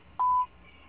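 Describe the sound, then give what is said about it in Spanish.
A voicemail beep: one short, clear, mid-pitched electronic tone, loud and steady, then quiet line hiss. “Deja tu mensaje después de tono.”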